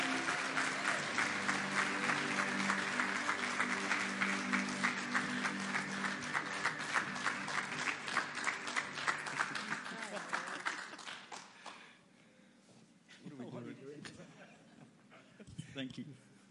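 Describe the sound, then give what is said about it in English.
A church audience in Hedgesville claps loudly and steadily to welcome two guests. The applause fades out after about eleven seconds, and then a voice begins speaking. “could you give a warm Hedgesville welcome to Jack and Sheila Harper of Save One?”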